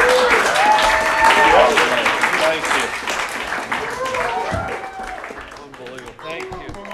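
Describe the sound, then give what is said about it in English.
A religious group attending a live stand-up set gives a loud round of applause, with cheering voices at the start. The clapping thins and fades gradually toward the end. “Give my son a hand.”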